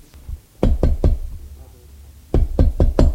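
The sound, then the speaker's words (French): Someone knocks on a hotel room door: three firm knocks, a pause of about a second, then four more. Each is a dull, low thud with a short crisp edge, heard alone over faint background hiss. “Il trouve la chambre 203. Hésite un moment et frappe.”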